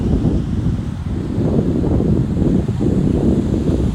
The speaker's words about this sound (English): I'm watching people frolic in the ocean, taking deep breaths